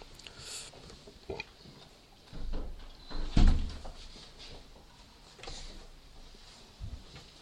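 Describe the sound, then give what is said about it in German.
A window is shut, with a soft scrape and a dull thump near the middle amid quiet rustling. “Wir können das Fenster jetzt wieder schließen.”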